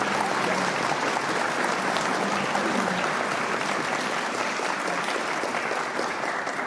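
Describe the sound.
Applause from a recovery meeting audience for a speaker, a dense, even wash of clapping that holds at a steady level for several seconds.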